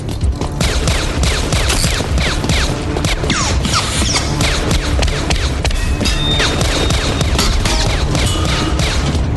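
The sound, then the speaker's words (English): Rapid, sustained gunfire rings out in a film action scene: a dense, loud barrage of cracking shots mixed with clattering impacts that continues without pause for the whole clip. “But whatever type of gun that is, that makes a really nice noise as that's firing.”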